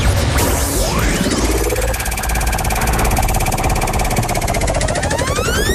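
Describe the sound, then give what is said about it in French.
A game show prize wheel spins with a loud, dense, unbroken run of rapid ratcheting clicks, mixed with sweeping tones that rise and fall throughout. “Allez, on lance la roue quand vous êtes prête.”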